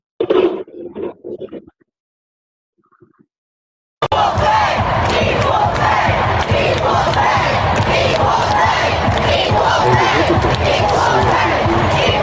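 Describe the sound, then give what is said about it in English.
A crowd roars and shouts loudly at a USA women's team final. A brief stretch of voice and a short silence come first, then a sudden, sustained wall of shouting and cheering. “So when USA women's team got into the final, you can be forgiven for thinking the crowd were shouting, USA. No, they were shouting,”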